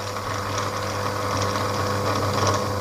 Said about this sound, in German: Eine Anleimmaschine. Und wofür wird die benutzt? Die benutzt wird, um Papier mit Leim zu bestreichen. Da muss man es nicht mit dem Pinsel machen.